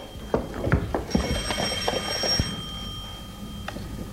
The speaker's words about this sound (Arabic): الو من رنة التليفون عرفتك